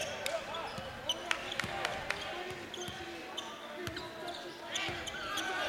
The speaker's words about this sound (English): Still with the dribble.